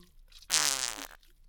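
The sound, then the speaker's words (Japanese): A single fart: a faint, buzzy, vibrating burst about half a second long that rises sharply and tails off. Near silence surrounds it. “おならはしてるけど。”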